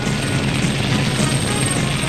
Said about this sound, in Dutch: De helikopter gaat terug naar de basis.